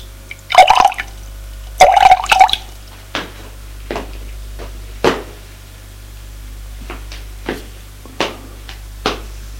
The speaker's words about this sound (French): et rajoute dans l'eau la poudre blanche. puis se sert un verre pour elle.